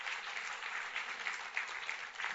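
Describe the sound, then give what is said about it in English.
Steady, dense applause from an audience clapping for a man during a talk. It keeps an even loudness with no breaks across the whole short stretch. “Just give him a clap.”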